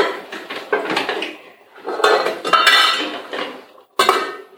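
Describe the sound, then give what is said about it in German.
A pot lid and metal kitchenware clatter and clink while pasta cooks, with several loud bursts of handling separated by short pauses and a sharp clank near the end. “Gib mir mal ein bisschen den Deckel von dem Topf.”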